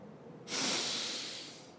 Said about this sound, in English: First, let's breathe in slowly through our noses.